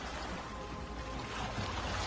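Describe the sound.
Ocean waves, heard as a steady, broad rushing wash of surf that stays even and continuous throughout, fairly soft and with no voices.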